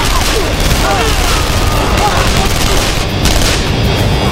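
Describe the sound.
Blaster gunfire in a one-sided firefight at a wire mesh gate: a loud, dense, unbroken barrage of overlapping shots with no clear pauses.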